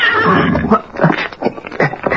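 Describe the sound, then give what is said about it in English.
A horse gives a sharp warning whinny at night under a full moon, a loud, rough, pulsing call lasting about two seconds with several quick surges in strength. “Then he was suddenly startled by a warning whinny from his horse”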